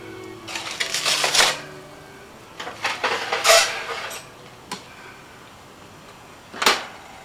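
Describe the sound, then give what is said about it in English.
Metal pan carrying liver clanking as it goes under a preheated broiler, a few sharp clattering bursts with short rattles between them and quiet gaps. “I've preheated my broiler, and I'm going to put the pan with the liver on and let it broil thoroughly on one side.”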